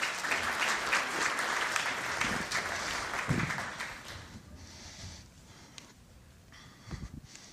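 Church audience applause welcoming two invited guests forward, dense and loud clapping at first that gradually thins and softens into scattered claps over several seconds.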